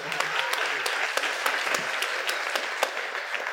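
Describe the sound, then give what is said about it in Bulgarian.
An audience applauds at a comedy roast, with dense, lively clapping that stays steady throughout and has a few sharper individual claps standing out. “Дайте аплодисмент за капитана.”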